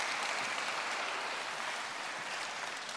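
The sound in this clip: An audience applauds to welcome pastors onto a stage, with dense, steady clapping that carries on without a break from start to end.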